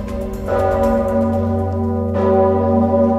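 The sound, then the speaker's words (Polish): A large historic church bell at Wawel, rung by bell-ringers pulling ropes to celebrate a papal election, gives a loud, sustained ringing drone with a rich hum. Two fresh strikes swell over the lingering tone. “Najsłynniejszy polski dzwon rozbrzmiewał z Wawelu o 20 przez 6 minut. Dzwonnicy błyskawicznie po ogłoszeniu decyzji konklawy zjawili się na wzgórze, aby pociągając za sznury uczcić wybór Leona XIV.”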